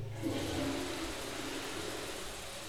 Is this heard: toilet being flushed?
yes